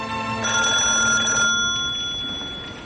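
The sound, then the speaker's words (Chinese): A telephone rings in a home study, one bright, metallic ringing burst of about a second that then fades away, with no voices. “电话铃响了”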